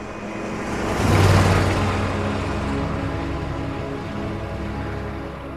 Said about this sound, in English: Ming drives the RV homeward